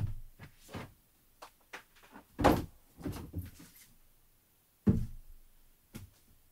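A luxury gift box holding Tân Cương bud tea, a Lunar New Year gift set, being opened. Many faint, irregular knocks, thumps and light handling clatters follow one another, with a couple of sharper thuds among them.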